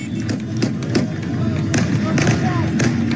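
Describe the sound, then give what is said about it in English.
Celebratory gunfire shot into the air during crowd celebrations, a few sharp cracks scattered over a continuous crowd rumble, with a voice talking over it. “Shooting thousands and thousands of bullets to the air celebrating.”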